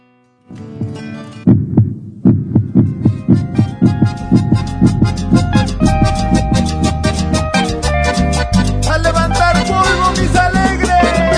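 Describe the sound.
A heartbeat sound effect of steady, regular low thumps repeating many times, with music swelling in over the beat and carrying on loudly to the end.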